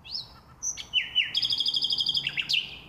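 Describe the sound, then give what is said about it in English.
A male nightingale sings a brief phrase of high whistled notes that breaks into a rapid, evenly pulsed run of loud chirps and ends on a sharp flourish. “When this nightingale mates, his female partner will lay 4 to 5 eggs in a cup-shaped nest she'll build with coarse grass and dead leaves.”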